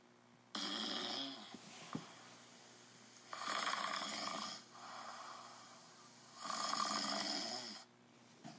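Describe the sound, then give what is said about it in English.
Men snoring in a crowded tent at an expedition fort: slow, rasping, breathy snores that swell and fade in long cycles, with two louder drawn-out surges standing out, and no talking. “The sound of snoring men filled the tent.”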